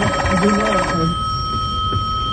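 A telephone on a direct line rings with a rapid, warbling electronic trill for about a second, then fades into steady background hiss.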